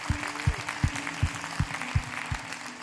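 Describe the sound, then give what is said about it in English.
A church audience applauds, the clapping sustained over a steady, regular low thumping beat that repeats throughout. “So as the family of God, can we just put our hands together one more time and welcome people into God's family today?”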